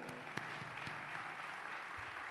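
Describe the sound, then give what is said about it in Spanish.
Applause for award recipients at a journalists' ceremony forms a faint, steady wash of clapping that continues without break and without talk. “Un aplauso para ellos, como es natural.”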